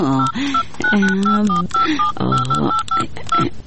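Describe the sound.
Telephone keypad tones as a phone number is dialed, a long run of many short, bright beeps following one another at an uneven pace with brief gaps between digits.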